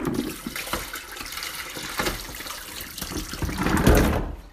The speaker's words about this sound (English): And just going to give them a rinse. Wow, that's a lot of potatoes.